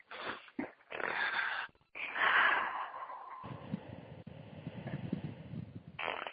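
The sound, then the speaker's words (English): Deep breaths are drawn in and let out during a group call. A few faint, airy, wheezy inhales and exhales come one after another, with short pauses between them. “Let's take a deep breath, everyone.”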